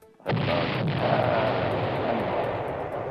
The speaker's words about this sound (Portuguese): Deu uma bomba aqui.